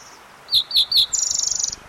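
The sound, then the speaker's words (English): A fox sparrow sings in a bathroom, giving three short, bright, high chirps and then a rapid, buzzy trill that holds steady before stopping. “fox sparrow singing in the bathroom”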